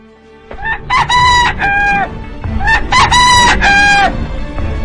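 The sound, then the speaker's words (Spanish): A rooster crows twice, loud and alone: two long, strained cock-a-doodle-doo calls, each rising to a bright, held peak before breaking off. “¿Escuchaste, señor diablo? ¡Ya cantó el gallo!”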